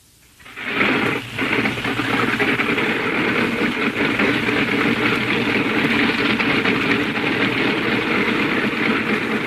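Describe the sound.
An aircraft engine starts and settles into an idle: near-silence, then the engine catches and surges up within a second into a loud, steady droning roar with a dense, throbbing pulse that holds to the end.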